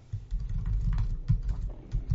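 Keystrokes from typing a message on a computer keyboard: a rapid, uneven run of many soft clicks and taps, steady throughout, with no voices.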